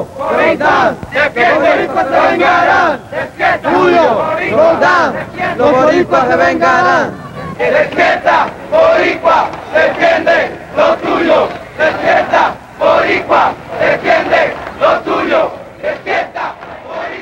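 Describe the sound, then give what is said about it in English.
A crowd at a Puerto Rican protest march chants slogans in unison, loud rhythmic voices rising and falling in repeated bursts throughout. “In this march, you can hear that they're telling Puerto Ricans to wake up so that they realize the oppression that they're facing.”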